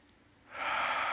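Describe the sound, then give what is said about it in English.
A deep breath drawn in during a guided moment of quiet prayer: after a near-silent half second, an airy inhalation swells quickly into a loud, steady rush that holds to the end. No voices are heard. “Everyone take a deep breath in.”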